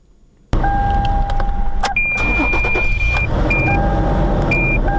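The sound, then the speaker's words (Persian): A car engine is started: after a short quiet moment it catches abruptly and settles into a loud, steady running rumble, with a few thin, high electronic tones sounding over it. “در حال روشن کردن موترش است.”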